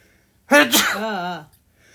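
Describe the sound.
A single loud sneeze bursts out suddenly with a sharp voiced onset, then trails off over about a second. No other talk is heard around it.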